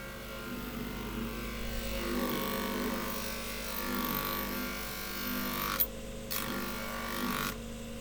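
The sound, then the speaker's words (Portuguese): Fine bench grinding wheel doing finishing polish work, a steady, even whirring hum that holds its level throughout, with one brief tick near the end. “Como depois o acabamento ainda é num outro esmeril mais fino, que tem outro cantar.”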